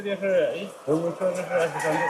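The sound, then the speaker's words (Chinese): Wuhei black-feathered chickens cluck and call while pecking at feed in a temperature- and humidity-controlled henhouse. A few fairly loud bursts of throaty, harmonic clucking run almost without a break. “鸡舍里恒温恒湿。曾山看着眼前欢快啄食的五黑鸡”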